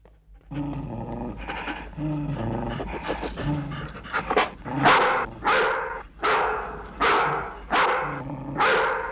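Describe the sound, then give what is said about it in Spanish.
Dogs barking in a series of loud, sharp bursts through the second half, preceded by panting and rough canine breathing. “Los perros no muerden si no se lo ordenamos mi hija o yo. Y solo comen su comida.”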